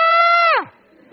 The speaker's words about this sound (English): So I decided that I would scream. So I tried to work up a good scream. And as I did, it came out like this.